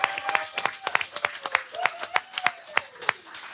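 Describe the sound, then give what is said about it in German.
Applause for an honoured ice hockey club official at a panel event: many sharp, irregular hand claps that continue throughout without a clear rhythm. “Machen wir nochmal einen Applaus, weil der Thomas hat sich's mehr als nur verdient.”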